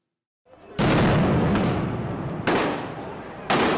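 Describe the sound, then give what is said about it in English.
Police grenades exploding as riot police break up an opposition demonstration at Independence Square in Dakar. A few sharp, loud blasts burst over continuous roaring noise, with no talk. “The police have started throwing grenades.”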